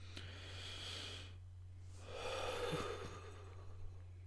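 A slow, deep human breath: faint, airy rushes of breath rise and fall across a few seconds over a steady low electrical hum.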